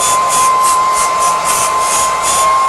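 An electric hair dryer runs on a weak supply, giving a steady, loud whoosh of blown air with a constant thin whine and a hiss that pulses gently throughout. No voices are heard.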